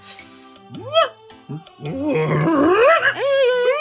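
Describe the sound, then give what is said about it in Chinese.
Several dogs barking, yelping, whining and growling in a yard: loud, overlapping calls that swoop up and down in pitch, starting with scattered yelps and building into a dense, continuous clamor. “你们这个狗村真是名副其实啊，满院子的狗啊”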